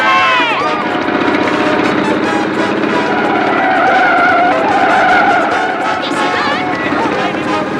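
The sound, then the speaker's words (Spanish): Tyres screech as a taxi swerves sharply right to get away from a motorbike: a loud, sustained squeal with wavering pitch over a roaring engine, continuous throughout. “El taxi toma un desvío a la derecha alejándose de la moto.”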